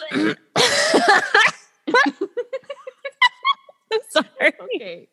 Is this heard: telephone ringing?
no

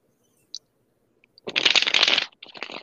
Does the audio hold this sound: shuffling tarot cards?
yes

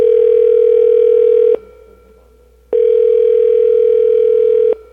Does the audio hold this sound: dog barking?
no

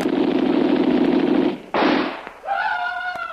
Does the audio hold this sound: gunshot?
yes

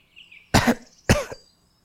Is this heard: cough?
yes

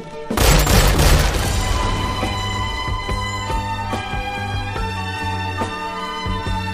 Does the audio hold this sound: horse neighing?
no

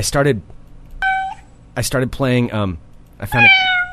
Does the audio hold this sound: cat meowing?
yes

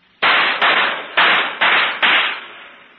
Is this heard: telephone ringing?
no

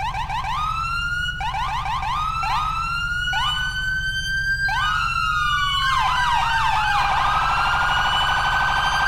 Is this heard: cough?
no

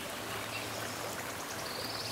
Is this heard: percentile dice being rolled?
no

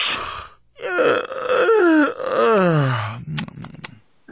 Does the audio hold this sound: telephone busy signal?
no

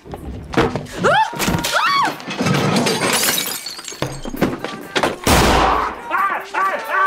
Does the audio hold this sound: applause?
no

